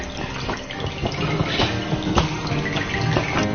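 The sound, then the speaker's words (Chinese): Water runs and drips off freshly dyed cloth lifted from the dye bath during repeated dip-dyeing. It makes a steady patter of splashing with scattered sharper drip hits and no voices. “看那下滴的水了，看下滴水变清澈了就可以放进去。”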